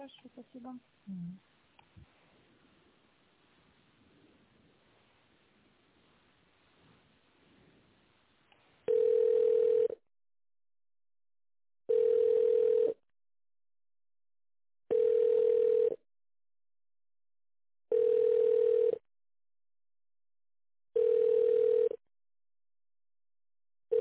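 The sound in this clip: Telephone ringback tone while a call is transferred to an office: faint line noise, then five evenly spaced steady tone bursts, each about a second long, separated by silence.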